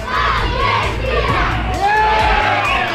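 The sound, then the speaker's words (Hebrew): Dozens of residents gathered for a shared match viewing erupt in loud, continuous cheering and shouting at an Argentina goal, with many overlapping voices, children's among them. “באורנר עשרות תושבים התאספו לצפייה משותפת ולחגיגות הניצחון. כתבתנו שקד ויקינסקי שמעה אותם. הנה גול של ארגנטינה”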